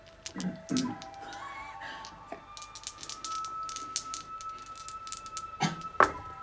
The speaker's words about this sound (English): As with so many things in Dungeons and Dragons, it comes down to a dice roll. Roll percentage dice.